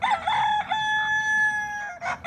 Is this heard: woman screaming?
no